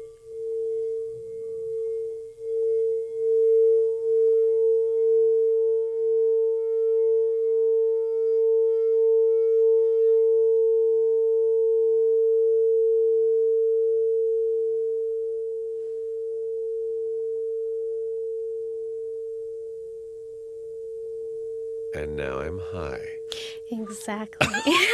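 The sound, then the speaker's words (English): A singing bowl tuned to a high A, the crown chakra bowl, rings with a pure, sustained tone for over twenty seconds, wavering gently. A few faint noises sound early on, and a burst of other sound comes near the end. “So the next bowl I'm going to show you is going to be the crown chakra, which is the high A.”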